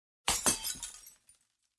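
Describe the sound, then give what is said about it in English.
A small glass vial is thrown to the ground and smashes with one sharp, bright shatter, then a brief scatter of fragments and a faint final clink. “He throws the vial down on the ground and smashes it”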